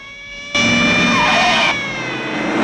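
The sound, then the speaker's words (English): Roaring engines of police cars in a car chase near a Las Vegas casino, a loud surge of about a second with a sliding squeal over a steady engine drone. “Another cop car joins the chase. A pursuing cop car spins to a halt, then sets off again.”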